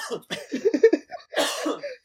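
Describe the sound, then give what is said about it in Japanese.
A cough during a studio chat: a short, rough burst follows a few brief throaty voiced sounds, all fairly quiet. “やばい、咳が出そう。”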